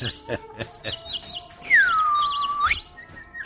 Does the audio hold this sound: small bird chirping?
yes

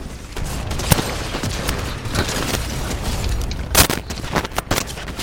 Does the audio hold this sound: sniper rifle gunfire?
yes

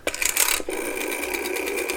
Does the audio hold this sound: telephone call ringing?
yes

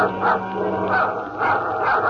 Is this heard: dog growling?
yes

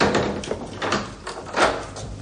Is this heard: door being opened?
yes

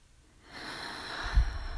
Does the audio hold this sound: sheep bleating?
no

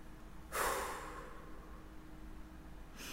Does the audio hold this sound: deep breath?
yes

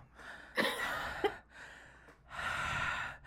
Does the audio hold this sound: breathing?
yes

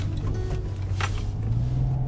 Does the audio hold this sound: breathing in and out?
no

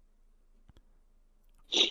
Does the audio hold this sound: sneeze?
yes

